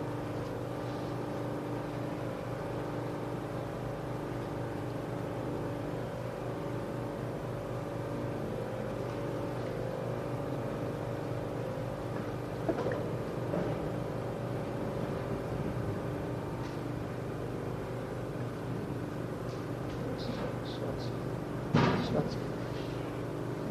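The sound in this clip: A car drives along with a steady, low engine drone that holds an even level throughout, with only a few faint clicks and knocks over the constant hum.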